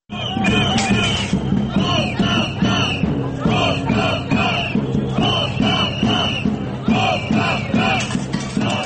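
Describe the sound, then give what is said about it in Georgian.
Protesting students chant outside parliament in Sofia, Bulgaria, against a Socialist-led government. Loud crowd voices shout rhythmic, repeated slogans in unison, with bursts of massed shouting between the phrases. “ეს შეძახილები გადადექით 14 ნოემბერსაც ისმოდა ბულგარეთის დედაქალაქ სოფიაში პარლამენტის შენობის წინ.”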